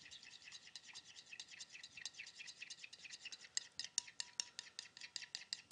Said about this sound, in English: I like a thick dressing. Just mix that up.